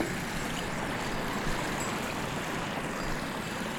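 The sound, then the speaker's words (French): Water gurgles and rushes as it works its way through a moraine, a steady, even wash of sound without pauses. “le gloussement de l'eau qui se fraye en chemin.”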